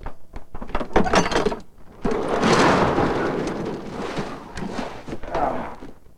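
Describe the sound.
A padlock rattles and clicks open on a truck trailer parked by a barn, followed by a long, rumbling scrape as the trailer's door slides open, then a fainter rattle near the end.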